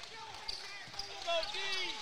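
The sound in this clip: Basketball dribbled on the court in a Westlake vs Roosevelt game gives repeated bounces under a commentator's voice and a busy crowd background.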